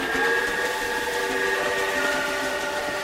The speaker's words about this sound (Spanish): Al fin llegó el tren que esperaba la señora.